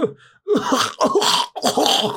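Coughing from a sickly old man who has fallen from his horse and is coughing up blood: three harsh, rough bursts in quick succession, each strong and ragged, with short gaps between them.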